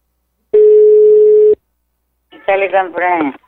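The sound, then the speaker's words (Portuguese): Telephone signalling an incoming call: one steady, mid-pitched electronic tone that lasts about a second and stops abruptly. After a short silence, a voice follows. “Tá ligando pra mim.”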